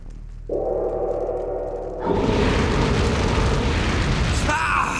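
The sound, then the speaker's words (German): A gate of fire opening: a low, steady droning rumble, then a sudden loud surge into a dense, roaring, crackling wall of flame-like noise that sustains to the end. “Na, nicht schon wieder ein Tor. Ein Tor aus Feuer.”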